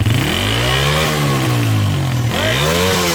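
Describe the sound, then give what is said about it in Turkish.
Loud engine revving from a vehicle with a tampered, modified exhaust. The pitch repeatedly climbs and sags in sustained rev swells from start to finish, with no talk over it. “Egzozunda oynama mevcut. Gaz verelim.”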